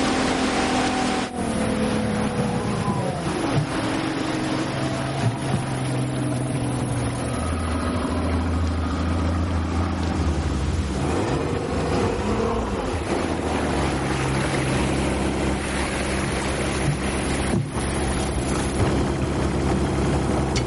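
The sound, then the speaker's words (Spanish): A motorboat passes with a steady, loud engine drone whose layered tones shift and bend midway, accompanied by wind noise and a faint wash of water throughout. “La lancha de Duncan pasa de largo.”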